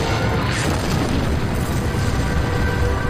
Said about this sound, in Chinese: 那辆德国坦克朝着高地团的一个士兵直接冲了过去。查波瑙赶紧朝那辆坦克开火，它爆炸了。